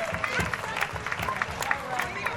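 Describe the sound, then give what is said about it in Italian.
Audience applause for a performer at a live event: dense, steady clapping and crowd noise that keep an even level throughout, with some faint tonal sound mixed in. “Un applauso per Gianluca Tramontano.”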